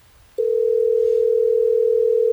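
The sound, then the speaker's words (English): A telephone dial tone sounds while a call is being placed. It begins after a short hush and holds as one loud, unbroken, steady tone until it cuts off at the end. “Are you ready for us to get him on the phone, Larissa?”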